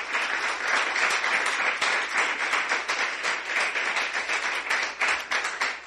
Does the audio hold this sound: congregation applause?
yes

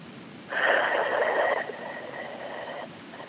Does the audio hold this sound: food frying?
no

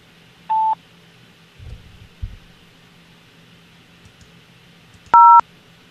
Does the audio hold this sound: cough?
no

